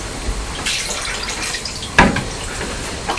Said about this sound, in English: Here's the plate. Just let me rinse it.